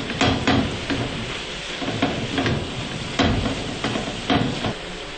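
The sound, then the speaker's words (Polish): Stirring a filling seasoned with freshly ground pepper: a spoon scrapes and knocks against the bowl in an irregular series of clattering strokes over a continuous rustling, sizzle-like hiss. “Dodajemy trochę świeżo zmielonego pieprzu, tak żeby ostrość była wyczuwalna. Mieszamy.”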